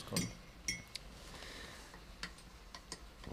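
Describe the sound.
Faint, sparse clinks of a spoon against a cup while cocoa is stirred, a few light metallic taps at irregular intervals over a quiet background.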